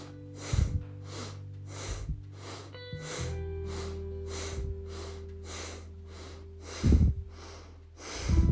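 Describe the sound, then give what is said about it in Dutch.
Forceful, rapid yogic bhastrika breaths repeat in a steady rhythm as a long series of sharp breathy bursts, with soft sustained musical tones underneath. “En opnieuw 7 bastrika's. Komt-ie.”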